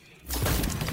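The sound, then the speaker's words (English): A player-death shatter effect from the video game Destiny 2: one sharp, bright crash bursts in after a brief quiet moment and rings briefly with a crackling, glassy decay. “And everybody knows what that sound is. That's somebody dying.”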